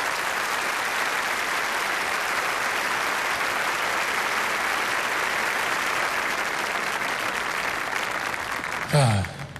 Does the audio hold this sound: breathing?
no